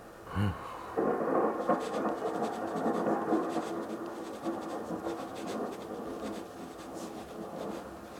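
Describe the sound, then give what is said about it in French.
Rumbling thunder rolls through a thunderstorm: a brief thump, then a sustained, gritty low rumble with a crackling, scratchy texture that holds steady for several seconds before easing slightly. “L'orage frémit, gronde, grince et explose.”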